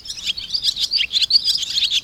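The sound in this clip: Barn swallow calls: rapid, high-pitched twittering chirps run continuously through the short clip, bird vocalizations alone with no voices.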